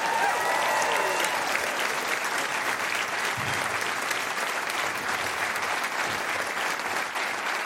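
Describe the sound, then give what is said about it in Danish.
Audience applause at a stand-up comedy show as a comedian is introduced, dense and sustained clapping from a large crowd that stays loud and even for several seconds. “Giv en stor hånd til Mikkel Klintorius.”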